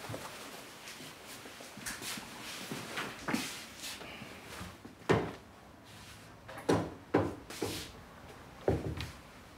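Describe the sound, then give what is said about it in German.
Things are put away in a cupboard with many irregular wooden clunks and knocks, like doors and drawers opening and closing, spread over several seconds at moderate loudness. “Ich will die Sachen nicht ständig sehen. Ja, dann sag doch was. Nicht, dass du noch hinfällst. Ich mach dir einfach in den Schrank, okay?”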